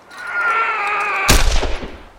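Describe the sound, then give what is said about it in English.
Gunshots as men put down badly injured horses: one sharp, loud report bursts over a steady tonal background, followed by a rough, crackling tail of further bangs that fade within about a second. “Men were shooting badly injured horses, putting them out of their misery.”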